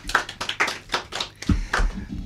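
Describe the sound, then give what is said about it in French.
Scattered handclapping from a theatre audience after a performance, with individual claps distinct and uneven in rhythm rather than forming a dense roar. “Je pense qu'on peut applaudir la performance.”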